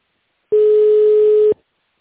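A single steady telephone line tone sounds while a call is being placed. It is mid-pitched and about one second long, then cuts off to silence.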